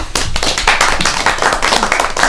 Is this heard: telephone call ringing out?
no

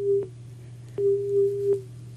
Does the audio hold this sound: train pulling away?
no

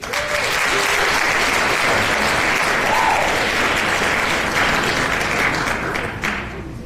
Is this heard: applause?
yes

